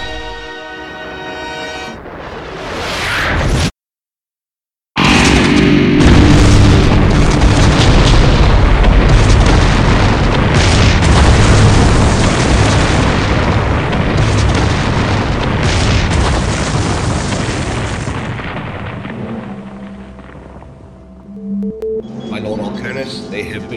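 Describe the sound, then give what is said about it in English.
A weapon detonation explodes after a brief silence into a loud, sustained roaring rumble that slowly fades over many seconds, with a voice heard just before the blast. “you are authorized to fire the weapon. Now. Successful weapon deployment. Lieutenant, release the detonator now.”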